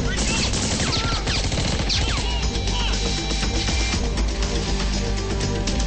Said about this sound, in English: There are more terrorists on the roof. They shoot at Glass, and he goes down the stairs.